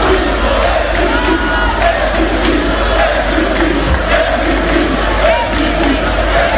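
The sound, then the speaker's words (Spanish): Sports fans partying in a fan zone in A Coruña through a night-long celebration after their team's late arrival: a dense, steady roar of shouting, chanting and cheering crowd voices with a low rumble underneath, unbroken throughout. “Llegaron a las 3:00 de la mañana y estuvieron danzando y de fiesta hasta las 10. Tenemos sonido de esa fiesta.”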